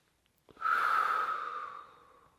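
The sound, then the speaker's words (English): A single slow, breathy exhale, breathing out to relax tense shoulders, swells quickly and then fades gradually over about two seconds, alone with no talking. “And as I breathe out, I'm going to let my shoulders relax.”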